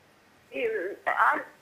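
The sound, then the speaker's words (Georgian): Telephone ringing as a viewer's call comes in to a live TV broadcast: two short, warbling bursts of ring tone in quick succession, fairly faint. “ზარი ჩვენს ეთერში.”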